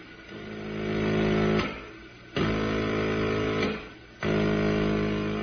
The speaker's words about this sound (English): I still don't understand why you're blasting the freighter. I can't leave it drifting this way in space.